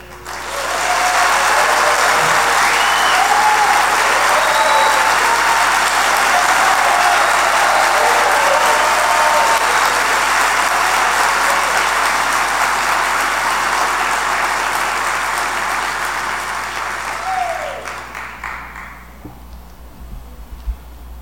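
Applause welcoming a concert in a university hall at a radio station's anniversary celebration, a large crowd clapping loudly and steadily for a long stretch before the clapping tapers off.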